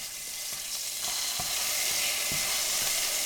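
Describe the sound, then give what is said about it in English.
A frozen cube of sofrito sizzles in a pan with sautéed garlic for Puerto Rican rice with pigeon peas, giving a steady, fairly soft hiss with a few light clicks and pops over it. “She starts by sautéing some garlic, and then she throws an icy cube of sofrito in the pan”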